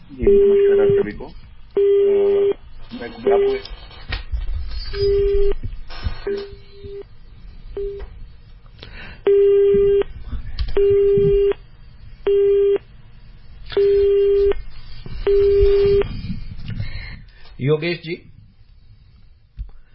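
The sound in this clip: A telephone busy tone on a faulty line sounds as a long series of steady, mid-pitched beeps broken by gaps, with people talking underneath throughout.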